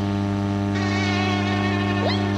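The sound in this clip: Mosquito buzzing, used in an advert for mosquito repellent: a steady, thin, high-pitched whine that holds on without a break and sounds alone.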